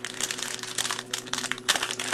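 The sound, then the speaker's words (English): Crinkling foil wrapper of a pack of 2026 Topps Series 1 baseball cards being torn open. Many quick, crisp crackles and rustles sound fairly faint and alone. “All right, so I'm getting ready to open up a pack of 2026 Series 1 cards here from Topps.”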